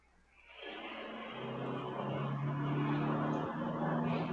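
A car engine revs outside, rising from near silence into a loud, rough, steady roar with a low droning hum that holds for several seconds.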